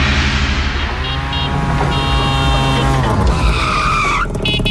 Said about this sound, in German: Wir hören nochmal, so klingt das Tuk-Tuk.